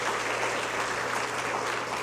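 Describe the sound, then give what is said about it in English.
Applause from a church audience, a full, continuous roar of many hands clapping that stays steady and strong throughout. “All right, let's give the Lord our applause.”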